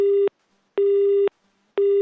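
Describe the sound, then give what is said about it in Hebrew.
Telephone busy tone after a call is hung up: a steady electronic tone that switches on and off in an even rhythm, giving about three repeating beeps with silent gaps between them. “הנה, ניתק את הטלפון”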